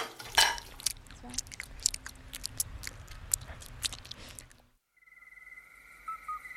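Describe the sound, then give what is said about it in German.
Crunchy chewing and biting as people eat a snack before a night hike: many quiet, irregular crunches, with faint insect chirps, until the eating stops and a steady insect trill carries on alone. “Komm, wir essen jetzt noch mal was, bevor die Nachtwanderung losgeht.”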